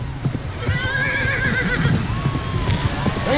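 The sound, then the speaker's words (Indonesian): Two horses galloping, their hooves drumming in a continuous clip-clop while shrill, wavering whinnies rise and fall above them, the neighs repeating several times. “Beuki deukeut bae eta dua kuda anu lompat ngabretek ka dinya teh katupuguh bae.”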